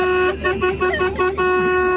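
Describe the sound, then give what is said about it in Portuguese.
A car horn sound effect blares in a sustained, steady tone lasting about two seconds, loud and unbroken, with some fluttering texture over it. “então bota minha buzina”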